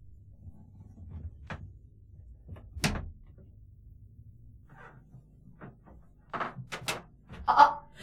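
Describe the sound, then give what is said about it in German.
A door being opened quietly at night, heard as a few soft thumps and clicks separated by near-silent gaps, followed by a louder cluster of knocks and creaks toward the end. “Achtung, ich mache jetzt die Tür auf.”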